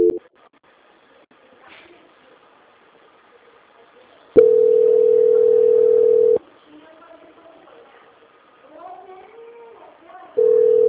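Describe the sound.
A telephone dial tone follows a dropped call: a steady, loud, flat hum lasts about two seconds, then returns briefly at the end. Quieter voices come through in the gaps between the tones.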